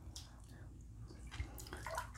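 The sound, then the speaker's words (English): Water moving in a bathtub around someone lying in it, heard as faint, irregular sloshing and soft splashes over a low steady hiss. “That's what I'm feeling right now in this bathtub with like the water just around my”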